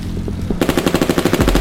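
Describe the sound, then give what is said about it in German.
Two machine pistols open fire almost together. After a brief, quieter lead-in comes a rapid, loud automatic burst of sharp, evenly spaced shots that runs to the end. “Der erste Mann eröffnet das Feuer, der andere ebenfalls keine halbe Sekunde später.”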